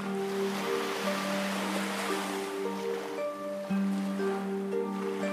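Ocean waves wash in a soft, continuous surge beneath calm, sustained tonal music that holds long, steady notes.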